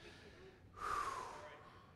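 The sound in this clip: A single sharp, audible breath, a snort-like intake and gasp, from an excited preacher pausing mid-sermon. It rises out of a faint background, swells briefly and then fades.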